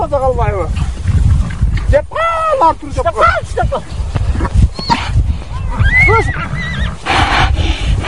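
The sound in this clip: Horses and foals whinny and neigh repeatedly as shouting men catch them with a lasso on a long wooden pole. The high, wavering calls rise above a rough, busy mix of voices and commotion.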